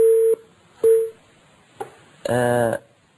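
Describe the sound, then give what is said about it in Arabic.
A dropped telephone call gives two short, steady, mid-pitched beeps of equal length, then a click and a brief, harsh, buzzing burst. “اتصال انقطع إن شاء الله نكمل الحديث.”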